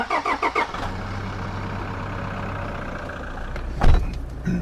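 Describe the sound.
A car engine cranks in several short bursts, then catches and runs with a steady low hum, with a sharper, louder surge near the end.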